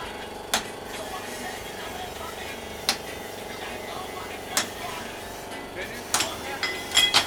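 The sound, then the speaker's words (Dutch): A hammer strikes scrap metal during an improvised metal scrap jam, giving sharp clanging hits over a steady droning background. The hits come sparsely at first and then more quickly near the end. “Oh jee, nou, gaat nu met een hamer.”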